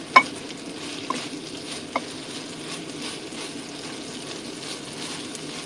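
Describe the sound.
Meat and beans frying together in a pan, a steady low sizzle broken by a few sharp scraping clicks from stirring early on.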